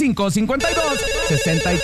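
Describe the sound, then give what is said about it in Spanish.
A telephone rings with an incoming call: a steady electronic ringtone starts right after a brief voice and holds evenly to the end. “Tenemos llamada.”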